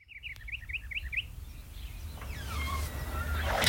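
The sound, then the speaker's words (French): Small birds chirping inside a song: a quick run of bright, high chirps at the start, set over low music that carries on afterwards. “Il y a encore des petits oiseaux. Il y a des petits oiseaux encore dans la chanson.”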